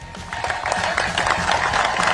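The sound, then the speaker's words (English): Celebratory crowd clapping at a University of Oklahoma baseball championship celebration: a dense, loud, steady wash of claps over a low rumbling undertone. “Good clap there. Thank good, you. Good sporty, celebratory baseball clap.”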